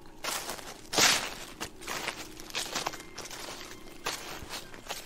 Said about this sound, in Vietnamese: Quả nhiên, gã nghe có tiếng mở cổng tre rất nhẹ, rồi tiếng chân người đang loạt xoạt, dẫm vào lá khô ở bên ngoài kia.